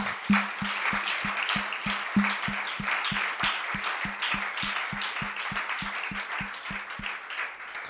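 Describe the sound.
A church audience claps in applause, the claps falling in a steady, even rhythm at roughly three per second throughout, with a soft wash of crowd noise beneath.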